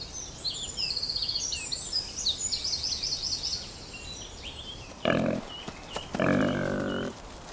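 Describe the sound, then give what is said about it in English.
A striped wild boar piglet in the Forest of Dean gives two short, harsh grunting squeals near the end. Faint, high bird chirping fills the quieter stretch before them. “This stripy piglet, known as a humbug, is part of a wild boar baby boom.”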